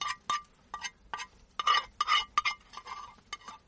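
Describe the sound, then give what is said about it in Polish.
Forks and dishes clink while sausage is served at a meal. There are many sharp, bright metallic and ceramic chinks at an uneven pace, some quick clusters, with no talk. “Wybierzemy sobie widelczyki do kiełbaski. No to będziemy nakładać, tak?”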